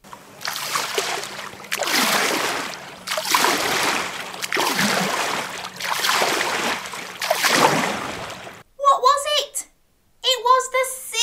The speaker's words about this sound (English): It was the waves swishing along the seashore.